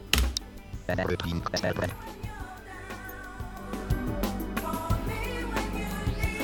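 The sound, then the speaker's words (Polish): A backing track playing from SPL Preview Player, tonal instrumental music with percussive hits, while a person talks over it. “No proszę, No, mamy gra. podkład akurat, ale działa. Ale e, ten podkład jest specjalnie zrobiony.”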